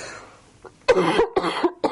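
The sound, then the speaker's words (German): A person coughs, with a faint short cough followed by a few harsh, loud coughs in quick succession. “Jetzt wird noch einmal gehustet und dann ist Schluss”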